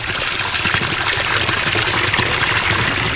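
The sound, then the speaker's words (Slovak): A small spring at Studničná runs at full flow, giving a steady, even rush of trickling water with no pauses and no voices. “Sme v Studničnej, a to priamo pri studničke,”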